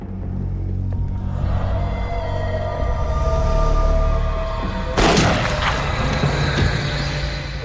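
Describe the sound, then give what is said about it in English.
A single sharp gunshot hits a wall next to a commando leader, a sudden loud crack that cuts through a steady, droning low rumble. “When the commando leader appears again, he moves the sight away from his head and instead shoots the wall next to him.”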